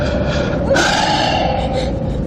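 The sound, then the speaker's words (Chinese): A long, deep breath drawn by an old man in a tense martial-arts drama confrontation, a steady breathy rush that brightens partway through, over a continuous low background. “深呼吸也没用了。”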